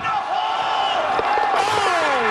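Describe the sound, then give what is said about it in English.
Crowd cheering at a footy match as a kicker lines up a shot, a broad, continuous roar of many voices with a single voice talking prominently over it. “He at 16, listen to the crowd. They're going to go nuts when he hits this thing.”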